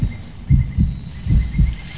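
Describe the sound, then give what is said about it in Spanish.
A heartbeat thumps in low, muffled double beats with a steady rhythm, heard alone over a soft background hiss. “Este es su latido, es la vida que despierta bajo nuestros pies.”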